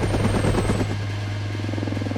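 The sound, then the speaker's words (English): Helicopter rotor noise as a chopper spins around violently: a low, steady droning hum with rapid thumping pulses in the first second that settle into a smoother whir. “Flynn spins the chopper around violently in an attempt to shake Sam off the skid.”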